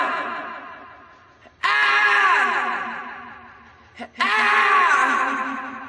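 A rock singer's sharp vocal cries opening a song burst in loudly, hold briefly, then sag in pitch as they fade with a lingering echo. The cries repeat with short gaps and no instruments underneath.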